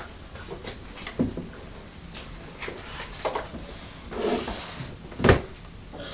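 Rummaging through a very full cupboard: faint knocks, clunks and rustles as items are shifted, with a few louder thuds and one sharp knock near the end.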